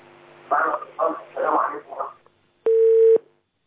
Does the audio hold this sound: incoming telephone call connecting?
yes